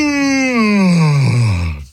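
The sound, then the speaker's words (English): A long, drawn-out vocal yawn lasting about two seconds, with a moaning voiced tone that slides steadily downward in pitch before fading out at the end. “Sorry. I had to yawn there.”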